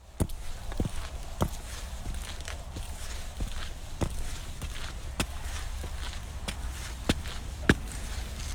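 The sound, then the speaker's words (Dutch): Footsteps climbing a flight of stairs up the IJsselmeer dike in Flevoland, a steady series of sharp, distinct steps at an even walking pace, clear over a faint background hiss. “Zo, en als je dan de trap op bent, dan kom je bovenop de IJsselmeerdijk.”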